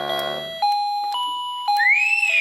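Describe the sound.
An electronic doorbell rings with a few clear, steady chime tones in quick succession, ending in a brief rising tone. No voices.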